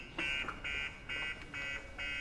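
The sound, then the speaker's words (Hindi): A car alarm goes off in five evenly spaced bursts of bright, high-pitched beeping, separated by brief gaps. “जाओ इस alarm को बंद करो जल्दी”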